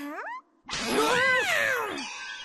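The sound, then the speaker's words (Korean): A cat meows twice: first a short call rising in pitch, then after a brief pause a longer, louder, drawn-out meow that arches up and falls away. “어? 저건 고양아, 뭐 하는 거야?”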